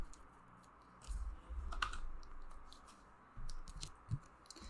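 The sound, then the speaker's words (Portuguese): Playing cards being shuffled, heard as faint, rapid riffling clicks that come in a few short bursts over a low background hiss, with no talking. “A gente vai embaralhar aqui para ficar bonitinho.”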